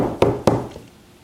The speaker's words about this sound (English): Somebody knocked on my door, it's a true story.